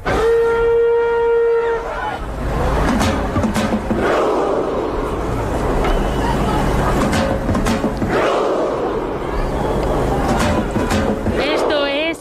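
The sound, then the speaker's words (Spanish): A football crowd at the World Cup performs the Viking chant: a long, sustained horn-like tone opens, then a mass of voices roars and shouts in unison, with sharp hits at intervals, loud throughout. “Viking Row, que ya se ha hecho viral en TikTok, que lo hacen los noruegos y los que no son noruegos.”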